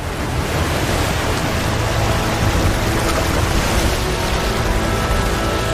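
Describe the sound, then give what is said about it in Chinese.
Rough, surging sea water roars steadily and broadly for the whole stretch, with no distinct breaks and no voices. “汹涌的海水成为了他面前的一道阻碍。”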